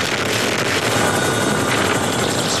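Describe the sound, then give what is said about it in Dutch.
A Dutch Chinook helicopter fights Belgium's largest wildfire in 100 years. Its rotors and engines give a loud, steady, continuous roar with no voices. “Dit is het geluid van de Nederlandse Chinook-helikopter die helpt bij het blussen van de grootste natuurbrand van de afgelopen 100 jaar in België.”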